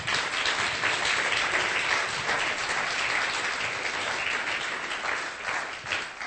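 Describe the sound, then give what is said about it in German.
An audience at a church service, where the preaching is translated into German, breaks into sustained applause. A thick, even wash of clapping holds for about six seconds and eases slightly near the end. “Give the Lord a hand. Gib den Herrn einen Applaus.”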